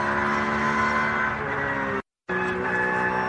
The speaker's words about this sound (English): potentially speeding in the pit lane, another car from one of the BMW classes